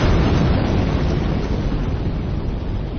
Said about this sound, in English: This is the sound of a car bomb exploding less than a block away.